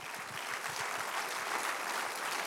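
A church audience applauds during a service, giving a steady, dense wash of many hands clapping together. The sound stays fairly faint and even throughout, with no speech over it.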